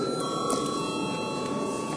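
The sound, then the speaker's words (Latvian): A bell signal rings in a parliament chamber before a vote, a steady sustained ringing tone with bright high overtones that runs unbroken from start to end. “Lūdzu zvanu.”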